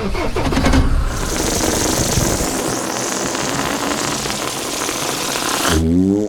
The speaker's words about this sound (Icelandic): reynir að kveikja á vélinni sem að gengur eitthvað brösulega. Skyndilega prumpar bíllinn alveg svakalega.